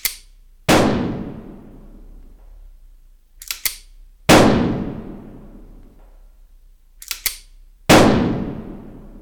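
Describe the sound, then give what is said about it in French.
Three loud .45 calibre gunshots are fired into the ceiling of a recording studio, evenly spaced, each cracking sharply and then fading in a ringing tail. Short mechanical clicks come just before the second and third shots. “Et c'est ainsi, grâce à 3 balles de .45 tirées dans le plafond du Gold Star Studio, que la paix put enfin revenir dans le petit monde des belles histoires des studios d'en haut.”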